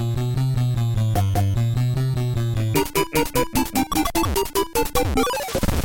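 Bouncy chiptune music from a Nintendo pill-puzzle video game: a bright, steady melody over a pulsing bassline that drives a constant beat, then shifts into sharper staccato notes before thinning out at the end.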